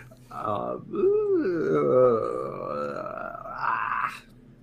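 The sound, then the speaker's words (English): A person voices a drawn-out, tortured groan of pain: one sustained, wavering moan with swooping pitch that strains upward near the end before cutting off. “I like that as the team name, just a pain sound. Okay, 2 seconds of a tortured groan.”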